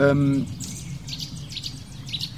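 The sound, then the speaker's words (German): Nuthatches calling, with high, short, clipped notes repeated in quick bursts at a moderate level after a brief voice at the start. “Ui, die Kleiber gehen ab. Kleiberparty neben mir.”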